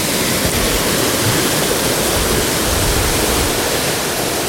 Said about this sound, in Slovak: a k tomu zvukovú kulisu horskej riavy Prosiečanky, ktorú určite počujete.